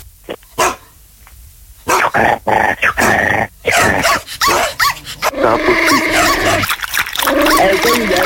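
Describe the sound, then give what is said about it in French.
A person's voice imitates a dog, giving a few sharp separate barks and then a longer stretch of rapid barking and yelping with growling tones. “Moi j'imite le chien.”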